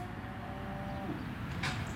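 A cow moos on a farm, a single faint, drawn-out low call over a steady background hum.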